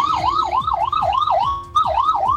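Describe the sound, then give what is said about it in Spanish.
Fire brigade vehicles speeding past through heavy traffic with sirens wailing, a loud rapid rising-and-falling siren cycle that briefly cuts out and then resumes. “Hago un silencio porque está pasando personal de bomberos a alta velocidad, llegando recién al lugar, dada la dificultad de tránsito, de desplazamiento que han tenido en toda esta jornada.”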